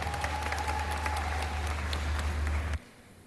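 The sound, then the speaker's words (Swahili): Dense, steady clapping from an audience at a Tanzanian awards ceremony runs for nearly three seconds, then cuts off abruptly into near silence. “Tumpigie makofi mengi sana tafadhali.”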